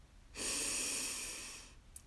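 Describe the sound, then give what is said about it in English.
A single breath drawn in through the mouth, a soft, airy hiss that swells quickly and then fades gradually over more than a second, heard alone. “breathe in.”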